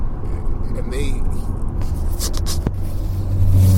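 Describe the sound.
A car being driven: a steady low engine and road rumble with a brief scrape, swelling louder near the end, while a voice is heard over it.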